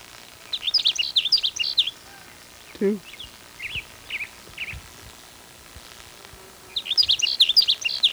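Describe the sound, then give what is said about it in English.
A sage sparrow sings in high, rapid bursts of jingling, chirping notes, in three main phrases with quieter scattered notes between them. A brief low sound cuts in near the middle. “There's a sage sparrow that's singing near where the blackbird sparrow is.”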